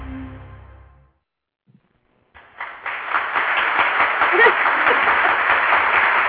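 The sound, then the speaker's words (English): Applause opens a show, swelling in after a brief fade and near silence into dense, steady clapping that stays loud for about four seconds. “Don't you just love an opening with applause?”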